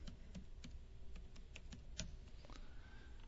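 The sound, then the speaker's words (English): Light key clicks from a computer keyboard as a search word is typed, a quick, irregular run of many faint taps heard alone. “So I'll type in tribulation.”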